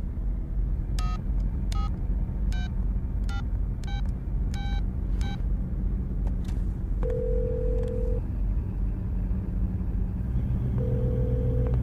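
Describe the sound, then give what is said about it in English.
Touch-tone telephone dialing: seven short two-pitch beeps in quick succession over a low rumble, followed by a longer steady ringing tone that returns after a pause. “Dial your number. Go ahead.”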